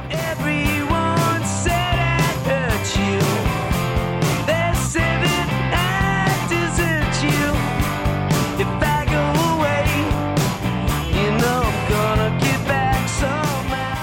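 A rock band performing a cover song, a steady, full band sound that plays without a break.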